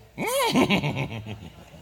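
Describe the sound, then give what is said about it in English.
A human voice imitating a horse's whinny: a loud cry swoops up and falls back, then breaks into a fast, quavering series of pulses that fade out. “Y'all can't tell me I can't sound like a horse.”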